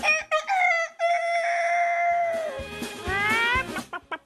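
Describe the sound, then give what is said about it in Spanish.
A rooster crowing sound effect: one loud, long, sustained crow that holds steady, then breaks into a warbling, wavering tail, ending with a few short clucking bursts. “El efecto especial del gallo.”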